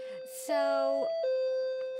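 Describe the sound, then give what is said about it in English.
Electronic doorbell chime from a doorbell linked to a camera system: a few clear, sustained tones in sequence, steady and fairly loud, with a brief hiss near the start. “That is a doorbell connected to a camera system that allows me to see who's at the door.”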